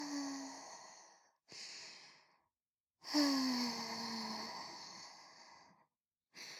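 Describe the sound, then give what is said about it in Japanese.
Slow, deep breaths in and out: a few long, soft, breathy exhales with faint voicing, separated by short pauses, heard alone without talk. “ほーら、深呼吸。”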